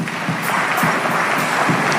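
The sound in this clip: A church audience clapping and acclaiming Jesus, a dense, continuous wash of noise with rhythmic clap accents throughout.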